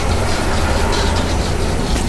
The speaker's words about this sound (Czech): Kde máme plynové zařízení. Spaluje to plyn a vyrábí to teplo a elektřinu.